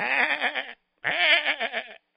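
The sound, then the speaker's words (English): A sheep bleats twice in a children's tale. Each call is a wavering, nasal cry just under a second long, with a short silent gap between the two. “They thanked the sheep”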